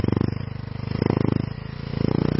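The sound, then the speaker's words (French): A motorcycle weaves between pedestrians through crowded market streets in Bangui. Its engine gives a loud, steady, rapid throb that swells and eases in waves with no voices. “La moto slalom entre les passants sur plusieurs kilomètres pour se rendre à Pétévo, à l'autre bout de Bangui”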